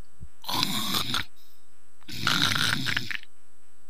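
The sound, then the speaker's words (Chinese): A man snoring loudly in a room: two long, rough, rasping snores, each lasting about a second, separated by a quiet pause, with no talk. “他摘耳朵一听，屋里是鼾声如雷。”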